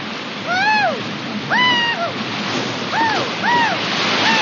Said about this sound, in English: The guys navigate the meandering rapids, collecting an occasional knock.